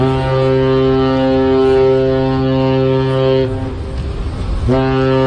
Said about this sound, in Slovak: To, čo počujete, je lodná siréna 100-tisíc-tonovej lietadlovej lode USS Abraham Lincoln, ktorou varovala menšie plavidlá pri vplávaní do prístavu v San Diegu.